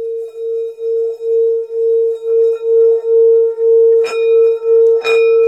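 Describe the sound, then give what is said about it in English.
A singing bell used in place of a gong for morning chanting rings with a sustained, pure mid-pitched tone that pulses in a steady slow wobble. Two brief sharp knocks land near the end. “instead of ringing the gong, the reason I've got it here is just to do the singing bell.”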